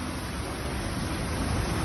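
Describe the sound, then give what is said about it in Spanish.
Rushing water from a video clip: a steady, dense, loud roar of fast-flowing water with no clear breaks and no talk. “¿Y esta de dónde es, mijo? ¿Dónde corre el agua así?”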